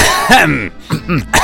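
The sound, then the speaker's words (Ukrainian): Throat clearing: a few short, rough, rasping bursts, moderately loud, with brief gaps between them and no speech. “Ну це спеціально прокашлявся.”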